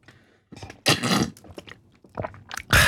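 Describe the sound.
Mouth noises of someone taking a sip of a drink during a break in hot weather: a few wet, noisy bursts of slurping and swallowing with short pauses between them and no talk.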